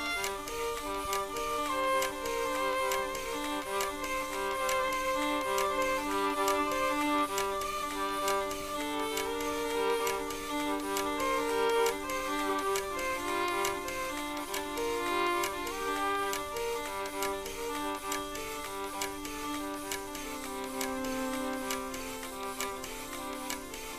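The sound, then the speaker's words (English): Mine winding machine at the Central Deborah Mine in Bendigo, ticking in a steady, even mechanical rhythm with a sustained tonal hum underneath, unchanged in level for the full stretch. “This rhythm track is from a winding machine recorded at the Central Deborah Mine in Bendigo.”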